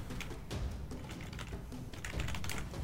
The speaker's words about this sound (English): A lot of emails being typed up right now.